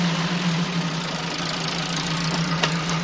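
A car engine runs with a steady, low, loud rumble and an even throb as the car pulls away. A brief click comes near the end.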